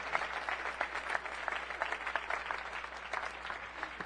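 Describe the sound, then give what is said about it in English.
Church audience applauding an adoptive family, with many separate claps standing out in a steady, fairly quick patter that stays at a moderate level throughout. “Let's give this family a round of applause.”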